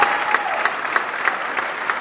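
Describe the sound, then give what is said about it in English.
Citizens applaud at the swearing-in of two new city councilmen, a continuous, even roar of many clapping hands with no pauses. “two new Farmers Branch councilmen who backed 2903 were sworn in to the applause of”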